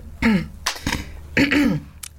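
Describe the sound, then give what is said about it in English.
Someone clears their throat in two rough, voiced bursts with gliding pitch, separated by a short breathy pause. “I love the way you cleared your throat.”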